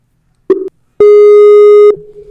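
Skype call tone: a brief electronic blip, then a loud, steady, buzzy tone held for about a second, followed by a softer, lower tone trailing off.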